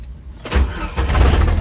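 A 1999 Jeep TJ engine starting after its ignition cylinder was reinstalled: after a short quiet moment it cranks briefly, then catches into a loud, low, steady rumble.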